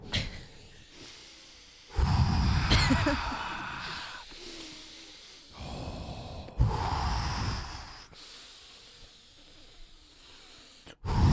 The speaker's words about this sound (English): is still hiccuping.